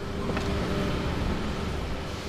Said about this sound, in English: Ocean Drive isn't exactly quiet on a weekday morning. It's the din of delivery trucks unloading their wares to local restaurants and bars